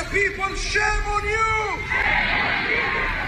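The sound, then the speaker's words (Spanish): A crowd at a pro-Palestine demonstration in London. Voices chant in a sustained, rising call, then break into loud babble, whoops and shouts that continue to the end. “Este es el sonido de la manifestación en Londres, aunque las marchas han sucedido en las principales ciudades del país.”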